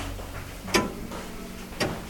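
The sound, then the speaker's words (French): Two crisp ticks from a weight-driven striking clock, spaced about a second apart, faint and sharp against a quiet low hum with no voices. “Là, c'est le tic-tac de l'horloge.”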